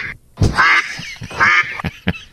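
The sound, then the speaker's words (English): Duck quack sound effect: a few loud, nasal, raspy quacks in quick, uneven succession, with no talk over them. “Maybe one quack because it is wet. Yeah, I sort of like the idea of the quack on a wet day.”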